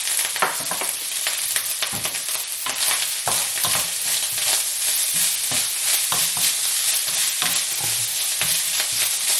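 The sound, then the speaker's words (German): Fried scrambled egg is stirred into a sizzling frying dish, a loud continuous hiss broken by many quick scraping stirs, with no voices. “Dann mache ich wie so ein Rührei, ein angebratenes, und das haue ich dann einfach hier mit rein.”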